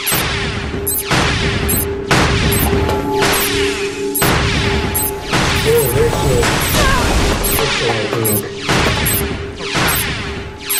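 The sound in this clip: A crystal is struck repeatedly in a video game, with many sharp, crashing impact bursts in a fast, fairly regular rhythm over a steady electronic tone.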